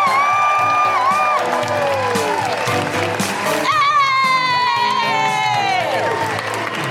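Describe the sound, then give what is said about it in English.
An audience at a live comedy show cheers, whoops and applauds to welcome a comedian. Loud, sustained clapping carries high rising woo-hoo calls throughout. “Put your hands together and make incredible woohooing noises for the wonderful Felicity Ward!”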